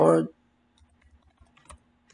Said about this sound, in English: so let me just type short to see some YouTube short, or let's say gift card